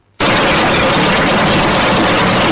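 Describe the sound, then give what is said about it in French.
Sewing machines whir in a busy tailor's workshop filling garment orders before a major Muslim festival, a loud, steady mechanical drone with a rapid ticking texture that starts abruptly after a brief moment of silence. “Entre bruit des machines à coudre et le va-et-vient des clients”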